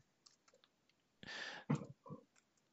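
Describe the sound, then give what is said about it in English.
Typing on a computer keyboard during a quiz game. A few faint, light key clicks come first, then a denser burst of keystrokes and a couple of final taps, all quiet and without talk. “I'll, I'll, type in Rudolph.”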